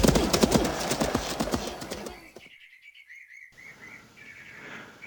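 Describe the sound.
Horse hooves clip-clop in a quick, steady rhythm of many sharp hits as the horse is ridden. They stop after about two seconds, and a series of high bird chirps follows.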